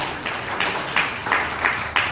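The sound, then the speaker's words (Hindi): Hesitant audience clapping at a Bhagavat discourse gathering, soft and subdued, rising into six gentle, evenly spaced swells. “तो जब ताली बजाते हो तो खुल के बजा लिया करो, शर्मा शर्मा जाते हो।”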